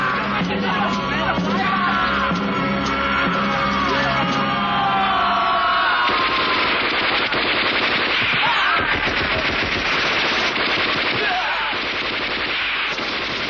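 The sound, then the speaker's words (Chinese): Machine gun fire rattles without pause in a wartime drama battle, Japanese troops gunning down collaborator soldiers. The dense, loud bursts run for the whole stretch, mixed with yelling and shouting voices. “一个小队的伪军在鬼子的刺刀和机枪下全部倒在血泊中。”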